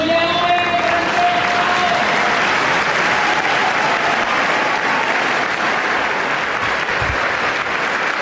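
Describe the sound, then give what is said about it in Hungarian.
Many pilgrims in the Paul VI Hall applaud Pope Francis's blessing: a dense, steady wash of clapping that holds at an even, loud level throughout. “A hatodik pálteremben jelenlevő sok-sok zarándok tapssal köszöni meg a mai napon is Ferenc pápa áldását, az ő tanítását.”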